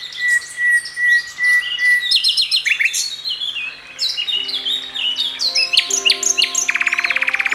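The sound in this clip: Birds chirp and sing in a busy mix of high, rapid twittering notes and sharper squawk-like calls, with a fast buzzy trill near the end.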